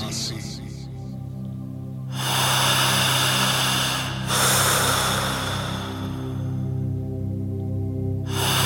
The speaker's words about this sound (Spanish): Cierre los ojos y comience a respirar exactamente así.